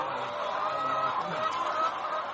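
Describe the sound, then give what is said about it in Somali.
Chickens clucking at a poultry farm in Mogadishu's Daynile district, soft and continuous. The clucking blends into a steady background murmur, with no clear single calls standing out. “Axmed Xasan Cali waxa uu aroor walba u toosayey si uu u xanaaneeyo raxantiisa digaagga beer ku taala degmada Daynele ee magaalada Muqdisho”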